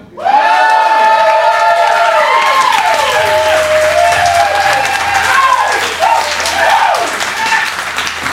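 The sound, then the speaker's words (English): A live audience at the Blockhouse in Bloomington cheers, shouts and applauds, a loud, continuous roar of clapping and many voices calling out together. “How about everyone in the audience say hello?”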